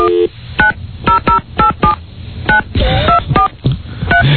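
Telephone keypad dialing tones as a 900 number is dialed on a request line: a quick, uneven series of short, clear beeps of varying pitch, loud and without talk.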